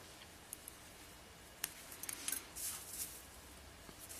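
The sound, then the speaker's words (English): Faint snips of scissors cutting beading thread: a few soft, sharp clicks scattered through otherwise near-silence, with a small cluster of quick snaps in the middle. “I'm just going to take it a little further than possible. So, okay. And I'm going to cut that off.”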